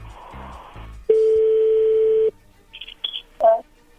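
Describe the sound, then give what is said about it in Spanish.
A telephone tone sounds while a call is placed: a steady single-pitched tone holds for about a second after a brief voice, followed by a few short high beeps and a muffled sound. “vamos a llamarle a tu novia Verónica, ojalá y no se entere tu esposa”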